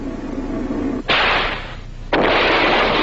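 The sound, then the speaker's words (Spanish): Gunfire in an action scene: two abrupt, loud blasts, each leaving a harsh, sustained burst of noise after it. “Sigan disparando, están desarmados, los podemos vencer.”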